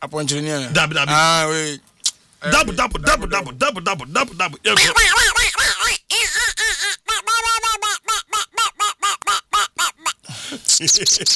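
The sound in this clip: Duck quacking in a long run of short, nasal, harmonic calls, which grow into a fast, evenly spaced series of many quacks toward the end.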